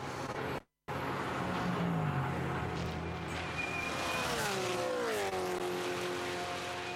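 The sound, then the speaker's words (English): Race cars roar down Conrod Straight during a twelve-hour endurance race at Bathurst. A loud, steady engine drone with a brief drop near the start, and engine pitch sliding downward as cars blast past. “An hour and 38 into the race, 10 hours and 19 to go as they blaze down Conrod Straight.”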